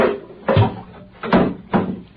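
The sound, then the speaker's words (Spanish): A small wooden chair is pulled closer, making a few short scraping, knocking bursts separated by brief pauses. “Voy a arrimar esta silleta.”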